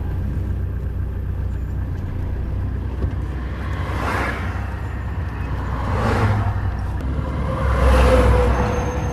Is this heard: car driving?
yes

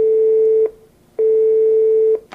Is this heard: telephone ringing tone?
yes

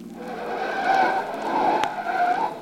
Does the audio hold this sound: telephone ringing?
no

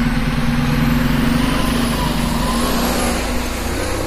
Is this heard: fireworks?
no

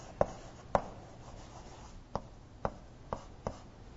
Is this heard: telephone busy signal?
no

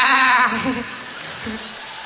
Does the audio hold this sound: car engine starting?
no

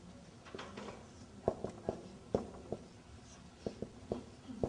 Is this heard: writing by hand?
yes

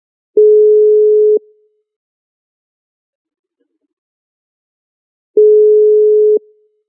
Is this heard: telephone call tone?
yes

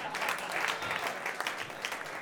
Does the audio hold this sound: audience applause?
yes

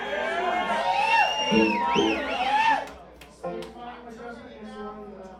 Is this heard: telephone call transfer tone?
no

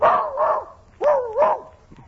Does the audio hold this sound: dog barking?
yes

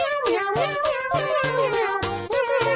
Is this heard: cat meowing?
yes

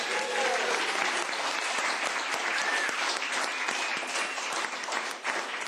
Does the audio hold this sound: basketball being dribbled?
no

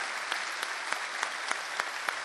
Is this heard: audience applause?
yes

